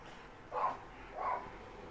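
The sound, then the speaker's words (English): Dogs bark outside, heard as two muffled, rounded barks about three-quarters of a second apart, faint against a low background hiss. “And I think those dogs agree outside.”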